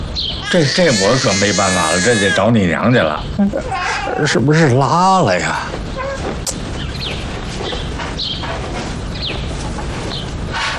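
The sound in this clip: Baby crying in loud, wavering wails that come in repeated bursts, with an adult voice talking over and between the cries.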